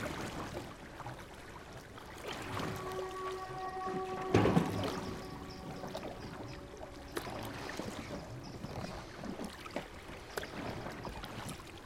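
Water sloshing as a man rows a small boat toward a ship: a steady low wash with a sharper splash near the middle, while sustained tones hum over part of it.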